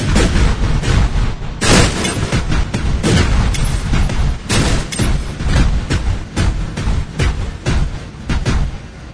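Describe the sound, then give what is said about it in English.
Firing-squad gunfire sound effect: many loud, sharp shots burst out in dense, overlapping volleys, rattling on almost without pause for the full stretch, with no voices over them. “I want a firing squad. Firing squad it is. Here we go.”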